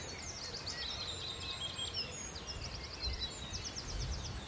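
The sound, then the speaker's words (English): Wood warbler singing in the distance on Sugar Loaf mountain, a few faint, high, rapid trilling phrases repeated over low wind rumble. “There's a willow warbler. And there's the wood warbler in the distance.”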